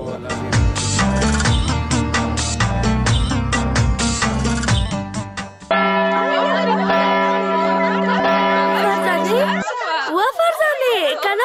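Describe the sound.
A school bell rings for break time, a loud, rapid metallic clatter lasting about five seconds, after which a sustained steady tone and then wavering, warbling sounds take over.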